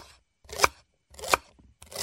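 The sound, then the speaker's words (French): A knife slices peeled potatoes into thin rounds 2 to 3 mm thick, giving three crisp cutting strokes evenly spaced about two-thirds of a second apart, each a short sharp burst with nothing else in between. “Coupez-les en rondelles de 2 à 3 mm d'épaisseur.”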